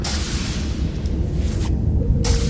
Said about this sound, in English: He's firing all these torpedoes, just destroying the planet behind him.